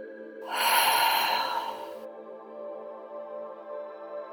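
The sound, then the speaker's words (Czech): One long, deep, airy breath is taken during a guided relaxation exercise, swelling loud for about a second and a half over a soft, sustained musical drone that continues alone afterward. “Hluboký nádech nosem, hluboký výdech pusou.”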